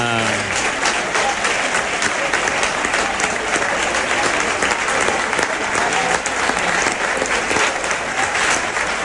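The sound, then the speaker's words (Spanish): Palmas from a crowd at a Huelva bullring, with many hands clapping flamenco-style. The clapping is loud and dense and is sustained evenly for the whole stretch. “Y bueno, palmas por Huelva. Esas palmas que son el sello de identidad”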